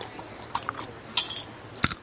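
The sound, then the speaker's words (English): A glass jar of pickled carrots is unscrewed, with a few quiet, crisp clicks and clinks of the lid spaced out over a faint background. “unscrews a jar and we crunch into some pickled carrots”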